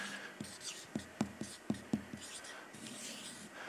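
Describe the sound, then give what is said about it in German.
Handwriting a word, with pen strokes scratching across paper in a quick run of short, scraping bursts before the scratching gives way to soft background noise. “Und Filia ist beschrieben, ich muss jetzt auch schauen, dass ich es richtig schreibe.”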